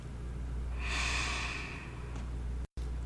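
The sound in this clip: A single slow, deep breath taken during a mindfulness exercise, a soft airy rush that swells for about a second and then fades, heard alone without talk.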